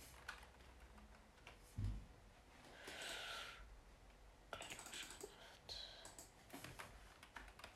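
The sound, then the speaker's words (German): Soft computer keyboard typing while a story is written, starting chapter one: faint, irregular keystroke clicks that come in uneven bursts, with a brief low thump partway through. “Ich schreibe immer ein bisschen weiter. Das ist jetzt Kapitel 1.”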